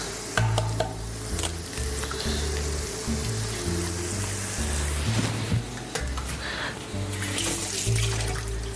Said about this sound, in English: A little rinse of the hand.